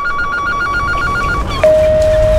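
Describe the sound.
An unanswered telephone rings in a fast, warbling pulse, loud and alone. After about a second and a half, a long steady tone cuts in as the call is forwarded to voicemail.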